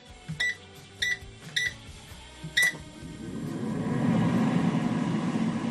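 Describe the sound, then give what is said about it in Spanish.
An air fryer gives four short electronic beeps, then its fan starts with a low whir that builds and settles into a steady hum. “El air fryer. Basta ya, o sea, no se puede hacer que más cosas.”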